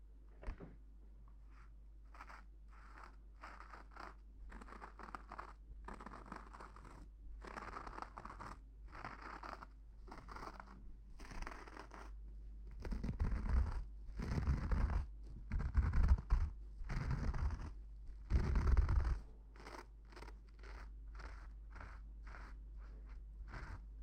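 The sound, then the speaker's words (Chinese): A razor scrapes across a face covered in shaving foam in many short, scratchy strokes. Most are soft, and a louder run of strokes comes in the later middle part, with no talking. “给您的脸上已经涂满了泡沫了，现在就开始给您刮胡子了。”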